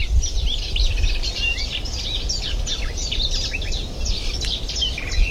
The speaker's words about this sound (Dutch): Er zit nog een tuinfluiter achter.